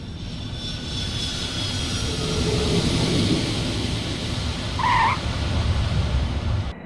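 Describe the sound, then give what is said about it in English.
An airplane roars on its landing approach with flaps extended and landing gear down, a steady broad rumble that swells slightly partway through, with a brief high tone near the end. “Now, give me 20 more degrees of flaps and gear down. 20 more flaps. Gear coming down. We have green light on the landing gear.”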